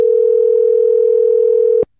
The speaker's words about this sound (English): So we're gonna be dialing him up here. Let me just pull a couple of buttons here, and he should be here. Dialing him up.